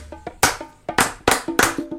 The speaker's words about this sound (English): Everybody clap your hands.